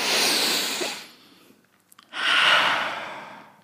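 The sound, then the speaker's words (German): Deep breathing during a group breathing exercise: two long, airy breaths, each lasting over a second, separated by a quiet pause, with a softer stretch between them and no talking. “Tief einatmen.”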